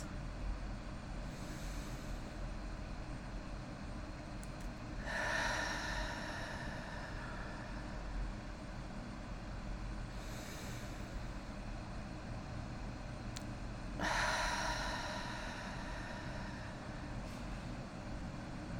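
Two long, airy exhales through the mouth during a guided deep-breathing meditation, each a soft whoosh rising over a steady low background hum, spaced well apart.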